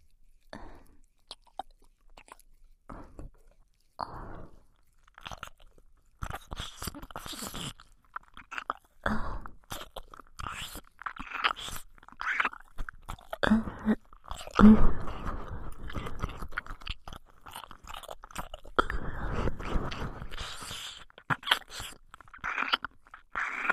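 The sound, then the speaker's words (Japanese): Wet ASMR mouth sounds of a tongue licking inside an ear: many soft smacks, slurps and clicks in irregular clusters, quiet and sparse at first, then denser and louder through the remainder. “ここからはもっと激しく坊ちゃまのお耳の中まで舌を入れて愛撫させていただきます。”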